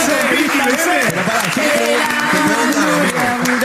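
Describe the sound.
Audience applause as a steady, dense patter of many hands clapping, continuing evenly throughout while a voice talks loudly over it.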